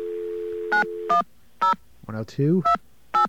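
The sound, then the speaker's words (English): A touch-tone telephone line opens with a steady dial tone, then a string of short dialing beeps follows while trying to reach an operator, with a brief voice sounding midway. “we're going to get an AT&T operator on the phone here.”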